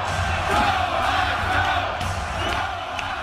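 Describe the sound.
Fans cheering and shouting inside a radio studio, a sustained dense roar of crowd voices that holds steady throughout.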